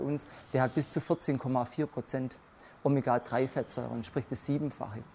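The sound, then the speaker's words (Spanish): Crickets chirp at an insect farm where millions of mealworms, crickets and grasshoppers are bred at constant temperatures up to 40 degrees, a steady high-pitched chirring running faintly beneath continuous talk. “Aquí se crían literalmente millones de insectos, gusanos de la harina, grillos, saltamontes, cada uno con necesidades muy particulares, como por ejemplo temperaturas constantes de hasta 40 grados.”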